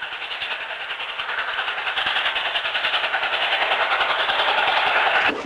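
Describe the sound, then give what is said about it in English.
A train rolls across a snowy landscape with a steady rushing rumble and a faint rhythmic clatter. The sound holds at an even, moderate level throughout. “In the distance, the train rolls across a desolate, snow-covered landscape.”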